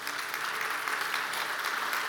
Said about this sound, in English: would you give them a warm welcome as they come up?